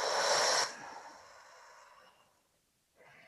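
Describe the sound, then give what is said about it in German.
During a guided breathing exercise, a person draws a short, forceful breath in through the nose, then lets out a longer, softer breath that fades away before the next breath begins. “Und wir atmen jetzt viermal zusammen tief ein und aus. Durch die Nase ein, halte kurz inne und atme dann durch den Mund aus.”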